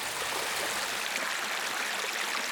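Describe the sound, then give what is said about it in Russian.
Fast-flowing mountain stream rushing and babbling over stones in a steady, bright, continuous wash of water noise, moderately quiet and with no voices. “Первый ручей был горный. Он был звонче. Он как будто перепрыгивал с камня на камень.”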